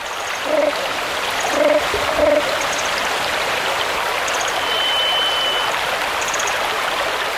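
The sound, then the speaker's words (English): A stream runs through the stillness of the Carmanah Valley in British Columbia. Its water rushes and babbles in an even, unbroken flow, bright and hissing, alone with no voices. “We leave you this week with the hypnotic rhythms of a stream that runs through the vast stillness of the Carmana Valley in British Columbia.”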